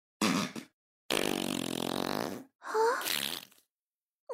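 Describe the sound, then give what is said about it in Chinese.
Loud, buzzy farts with no voices: a short burst, then a long sustained droning one, then a third with a squeaky wavering tone, and the start of a fourth at the very end. “不会让你一直休息的，你就一直用我们的臭屁来呼吸吧。”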